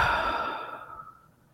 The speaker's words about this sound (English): So let's just start by taking a slow, deep inhale and exhale.